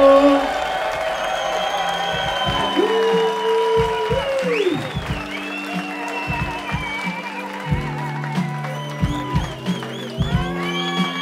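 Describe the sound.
Concert crowd in Stockholm cheering and applauding at a live hip-hop show, steady clapping with scattered whoops that fades slightly, while a voice and sustained tonal sounds carry over the applause.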